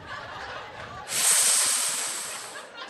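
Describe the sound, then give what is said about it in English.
A voice imitates a reverse snake hiss, a sex sound: a sudden sharp, airy inhaled hiss that starts abruptly after faint background noise and slowly fades. “We all make what I like to refer to as the backward snake. The sounds familiar, right?”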